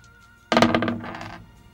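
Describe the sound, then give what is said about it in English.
Dice rolled during a tabletop role-playing game land with a sudden sharp clatter, then rattle and tumble through a quick series of smaller knocks before settling. “That's a really terrible roll. Oh, what'd you get? I rolled four.”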